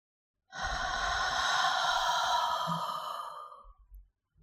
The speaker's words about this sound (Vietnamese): Có một tiếng thở nhẹ nhàng vang lên phía sau tay trái của cô, gần trong gang tấc, như đang kề sát bên tai cô. Nó tự như một tiếng thở dài yếu ớt, lại tự như có thứ gì đó đang phả hơi vào người cô.